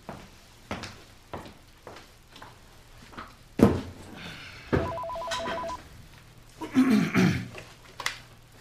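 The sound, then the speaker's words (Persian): A telephone number is dialed, heard as a series of light clicks and knocks, followed by a brief run of pulsing electronic tones and some louder handling sounds. “بلا فاصله دکتر سهرابی رو بگیرید”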